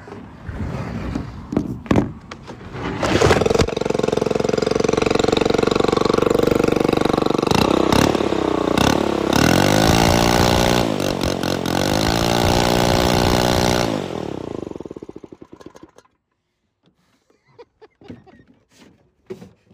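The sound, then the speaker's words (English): A leaf blower engine runs with a loud, raspy, dirt-bike-like whine. It holds steady, revs up and down a couple of times, then winds down and cuts off, leaving near silence after a few brief knocks and rattles. “Dirt bike, you're wrong. That is what my blower currently sounds like.”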